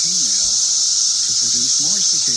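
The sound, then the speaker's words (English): Cicadas in Northbrook call to attract females, a dense, steady, high-pitched buzzing drone that holds without a break, with people talking over it. “It's the noise they're making. The cicadas are making these noise to produce, to attract more cicadas, to attract the females”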